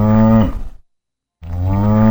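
A dairy cow on a farm mooing: two deep, loud, harmonic lows separated by a clean stretch of silence.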